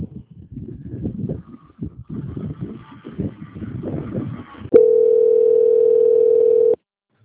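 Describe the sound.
A steady, loud, unbroken telephone line tone sounds while a call is being transferred. It holds for about two seconds and then cuts off abruptly, following several seconds of muffled, rumbling line noise.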